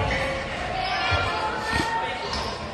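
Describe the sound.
A basketball is pounded down with two hands in a double dribble during a women's basketball game between the Sand Point Lady Eagles and the King Cove Rookies, two dull thumps under a commentator's voice and court noise.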